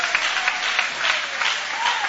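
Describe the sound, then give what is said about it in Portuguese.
An audience applauds during a Portuguese-language church service, producing a short burst of steady, crisp clapping with individual hand claps audible in the dense texture. “podem aplaudir a Deus com alegria”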